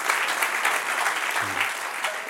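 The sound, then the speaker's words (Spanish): Applause at a religious service: steady, dense clapping from a crowd fills the whole clip at an even level, with no distinct voices. “Del otro aplauso al que reina.”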